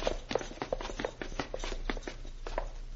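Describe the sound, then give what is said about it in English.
Footsteps climb a set of stairs in a secret passageway, a steady series of soft thuds with faint creaks, evenly paced over a low hum. “This passageway has a set of stairs that leads up to the next floor. Come, we will go up.”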